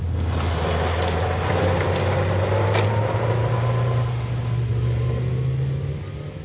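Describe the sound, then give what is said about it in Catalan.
A black sedan speeding down a road with a steady, loud engine drone and low rumble. Its pitch climbs slightly as it runs, and it eases off a little at the very end. “el misteriós sedan negre convertit en un autèntic cotxe suïcida segueix circulant desenfrenadament per la carretera i a tota velocitat desapareix per l'horitzó holandès.”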